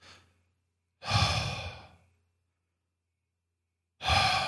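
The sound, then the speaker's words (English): A voice imitates loud snoring with a short breath at the start, then two long, rasping, breathy bursts separated by silence. “like super loud, like snoring. His head was like tilted back.”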